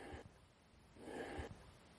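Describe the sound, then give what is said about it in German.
Slow, deep breathing during a guided relaxation exercise: a faint, airy rush of breath that swells, then eases off, with no voices over it. “Durch das tiefe Einatmen dehnt sich der Brustkorb und du entspannst ein wenig. Und nochmals, tief einatmen”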